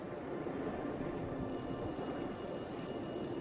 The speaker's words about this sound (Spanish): Luego, a la 1:15 de la mañana, el teléfono público comenzó a sonar.